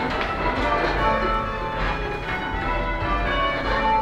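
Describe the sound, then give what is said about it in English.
Church bells in change ringing, several bells struck in a steady, evenly paced sequence, their bright metallic tones overlapping and sustaining into a continuous ringing wash at moderate loudness. “That's the meaning of change bell ringing. And to round out the conversation, that sounds something like this.”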